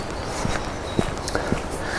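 Footsteps of a person walking outdoors on a walk: a few soft, slightly uneven steps over faint background noise.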